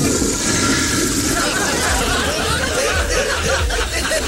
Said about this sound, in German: Ihr müsst euch mal um die Spülung da draußen kümmern.